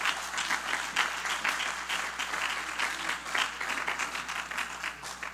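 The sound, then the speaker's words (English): A church audience applauds in praise, with dense, sustained clapping that holds steady from start to finish. “Let's give the Lord another hand of praise tonight. Praise God.”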